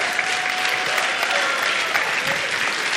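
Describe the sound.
Audience applause: a dense, steady clapping from a crowd, loud and unbroken for the whole stretch.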